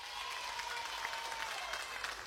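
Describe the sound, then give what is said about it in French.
Audience applause, a dense and steady wash of clapping that holds at an even level for the full two seconds, with no voices heard. “encore un plus gros applaudissement pour vous autres.”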